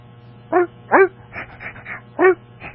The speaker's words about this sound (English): There you go. Now, that is a dog signifying what? I'm hungry.